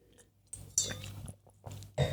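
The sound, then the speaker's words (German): Someone takes a quiet sip of a drink: a few soft, wet mouth and swallowing noises spaced across about two seconds, faint and with no speech. “Trinke jetzt noch mal ein Schlückchen”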